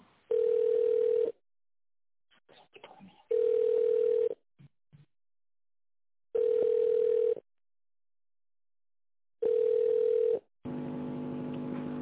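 Telephone ringback tone plays while an office call is transferred: four steady mid-pitched tones of about a second each, evenly spaced by silences, with faint clicks between. A different, denser steady sound follows at the end.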